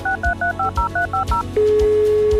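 Telephone keypad dialing tones: eight short, evenly spaced two-pitch beeps run in quick succession, then give way to a long, steady lower tone, with a soft low thumping beat underneath.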